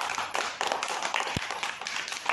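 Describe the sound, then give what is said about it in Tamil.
A group of people clapping in appreciation after a story is told: many quick, overlapping hand claps forming a steady, moderately faint patter throughout. “இந்த கதைக்காகவே ஒரு கைத்தட்டு குத்தலாமா?”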